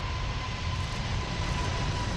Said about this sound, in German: Am 27. April 2005 ist es aber soweit und die Maschine hebt vor tausenden Zuschauern zu ihrem fast vierstündigen Testflug ab.